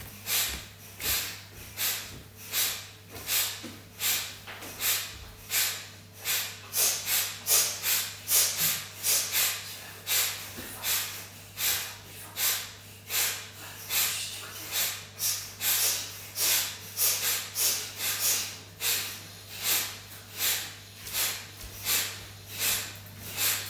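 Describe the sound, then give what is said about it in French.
Breathing driven by lower-belly contractions, rapid rather than slow: many short, hissy breath pulses in a steady, even train, fairly soft, over a constant low hum. “inspire sans rien forcer, juste très naturellement. Continuez.”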